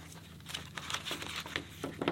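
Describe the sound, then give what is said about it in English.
A paper fastener is pushed through a paper plate for a whale craft, giving several soft crinkling scrapes and papery taps in uneven bursts, fairly quiet and without talk. “we're going to take our paper fastener, put it through our paper plate”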